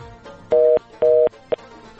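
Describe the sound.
Telephone ringing tone on a phone call: two steady, evenly spaced electronic tone bursts, each about a quarter second, then a brief third blip, loud over a faint background.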